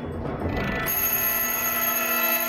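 Timer going off during a robbery, a continuous high electronic ringing that starts abruptly after a moment of rustling noise and holds steady and loud to the end.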